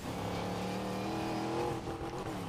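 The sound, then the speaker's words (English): Race car engine from a racing video game, a continuous, fairly loud drone of layered engine tones that holds steady for the whole stretch with no voices. “am I seriously about to lose this race again? This guy overtook me again on the last leg.”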